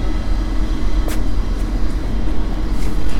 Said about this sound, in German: Gleis 11 Einfahrt ICE 1521 nach München über Hagen Wuppertal Abfahrt 6.36 Uhr. Vorsicht bei der Einfahrt.